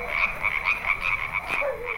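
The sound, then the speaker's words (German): Toads croak at night in the village of Mila 23, giving a chorus of many steady, rhythmic, buzzing calls that pulse evenly without pause. “heißt es für mich nur aufwärmen, essen und begleitet von Krötengesang schlafen gehen”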